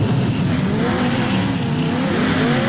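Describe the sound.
Vintage race cars roar around the Road America circuit during a classic racing weekend, a steady loud wash of engine noise with shifting tones and no break in the sound.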